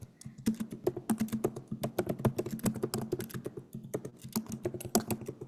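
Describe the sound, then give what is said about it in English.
Typing on a computer keyboard: many crisp key clicks in quick, uneven bursts with short pauses between them, fairly quiet and heard alone without talk. “Okay, I'm going to type it in here.”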